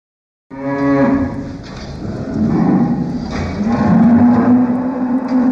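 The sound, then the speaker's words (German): Oxen mooing in a cattle stall holding about 150 fattening oxen on an Allgäu farm near Kempten: loud, low, drawn-out moos overlapping continuously after a brief silence at the start. “150 Ochsen stehen im Stall von Konrad Meyer in Wickensbach bei Kempten.”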